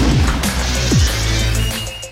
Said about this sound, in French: S'il tombe un béton comme ça sur le ventilateur, ça va pas être terrible.